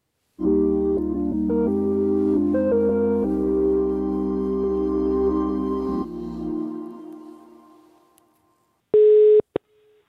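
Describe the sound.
Telephone call tones sound while ringing a clothing chain's store manager: loud, steady electronic tones step between pitches several times, then fade out. After a pause, one short beep follows. No one speaks.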